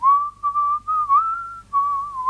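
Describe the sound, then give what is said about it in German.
Someone whistling a tune, a clear, fairly high melody in several phrases that waver gently up and down, broken by short pauses for breath. “Sag mal, pfeifst du? Ja, ich pfeife mir eins.”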